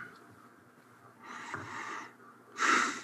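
Audible breath intakes just before someone reads aloud: two airy, breathy inhalations with no speech, the first moderate and drawn out and the second shorter, sharper and louder.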